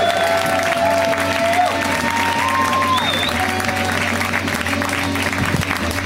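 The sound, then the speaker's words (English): Loud audience applause with some cheering for a comedian visiting from New York, a thick, continuous roar of clapping that holds steady for about six seconds. “Let's hear it for Emma Willman. Right. Give it up for Emma.”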